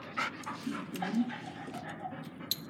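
A female dog pants after being let off her leash: quick, rhythmic, fairly faint breaths with a soft whimpering edge, running continuously.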